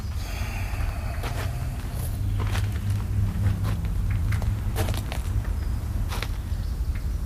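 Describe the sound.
Footsteps as a man steps backward, a few soft scuffing steps at irregular intervals over a steady low background hum, with no talk.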